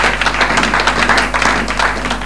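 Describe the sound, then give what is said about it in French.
A church audience applauds to acclaim Christ during a service. The clapping is steady, loud and dense, with individual claps over a constant low hum. “Acclamons la présence de Jésus-Christ au milieu de nous.”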